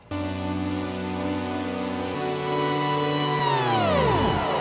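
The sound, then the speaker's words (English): Modular synthesizer chord module fed through a VCA modulated by random fluctuating voltage. A bright, sustained, harmonically rich chord shifts to a new voicing midway, then slides steeply downward in pitch near the end. “So I'm using their chord module and have that one going through a VCA so that it's not just a envelope that's putting it in. I have some random fluctuation voltage from the Sapel going through that.”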